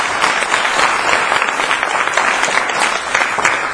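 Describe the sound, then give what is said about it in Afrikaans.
A church audience gives a big round of applause: dense, loud clapping that stays steady and unbroken the whole way through. “Geef vir die Here 'n groot hande toe.”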